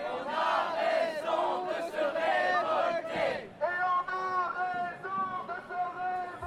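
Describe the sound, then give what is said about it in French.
Crowd at a public service protest march chanting and shouting together in loud, sustained unison, with a brief break partway through before the chanting picks up again. “Voilà, donc on est dans la manifestation aujourd'hui, service public.”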